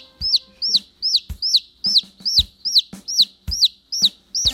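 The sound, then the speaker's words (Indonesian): A young chick peeps loudly and steadily, recovering after being weak: a regular series of sharp, high chirps, each rising then dipping in pitch, repeating about twice per second with no voices. “anak ayam itu bersuara. Suaranya sudah lebih besar.”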